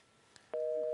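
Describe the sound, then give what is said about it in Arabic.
A telephone tone sounds after a dropped call: a faint click, then a steady single-pitched tone starts about halfway through and holds unbroken to the end. “طيب يبدو انقطع اتصال مع ريم.”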